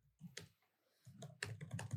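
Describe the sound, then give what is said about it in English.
Rapid typing on a computer keyboard, a quick, irregular run of faint clicks and taps with no talking. “That's the fastest you've ever typed. I know. That was serious typing.”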